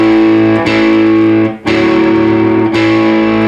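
Electric guitar in a lesson playing a short two-string phrase through distortion: a few sustained notes change in turn, with a brief drop in loudness midway before the next note rings out, loud and alone.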